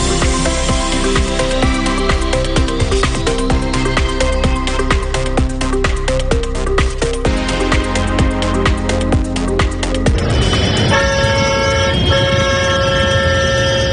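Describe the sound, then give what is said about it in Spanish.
Horns honking at a farmers' morning tractor protest in the street: a loud, dense blare of overlapping horn tones that continues throughout, shifting to a different held chord near the end. “Este es el sonido de las protestas de los agricultores que esta mañana han sacado los tractores a la calle.”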